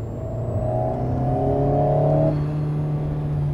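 A car engine pulling hard under high power, a steady, loud whining drone with stacked harmonics that cuts off after about two seconds, leaving a lower hum.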